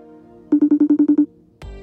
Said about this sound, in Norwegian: Og da tenkte jeg da får jeg bare ringe han.